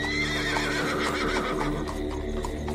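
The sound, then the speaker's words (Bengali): Coach horses driven off at speed, whinnying over the clatter of hooves. The sound is a dense, continuous and fairly loud mix that keeps up without pause. “ঝড়ের বেগে ঘোড়া ছুটিয়ে দিল coachman, যেন গাড়ি ভর্তি লোক নিয়ে পালিয়ে বাঁচল।”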